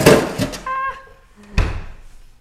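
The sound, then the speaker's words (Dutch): A freezer drawer being pushed shut: a few short knocks and bumps end in one solid closing thump, all within a couple of seconds. “Ik ga weer het vriezerlaag dicht doen.”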